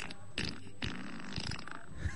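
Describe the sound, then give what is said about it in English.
A fart sound effect played from a phone app, a faint, short sputtering burst with a buzzy, rasping texture. “I'll play. This is fart number 3 out of 16 they have.”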